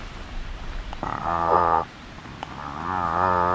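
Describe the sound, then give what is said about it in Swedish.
A person imitates the slow call of a cod with two long, low, drawn-out voiced grunts that sound like a hum or moo, separated by a short pause. “En torsk, nu har den många olika läten. Vi ska föra 2. Ett ljud är så här.”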